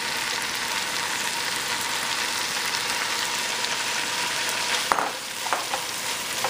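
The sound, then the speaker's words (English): Ginger and garlic fry in a pan with a steady, loud sizzle, then a few brief clatters of stirring near the end. “Once our ginger and garlic just fries up just a little bit, it's already going, just like so.”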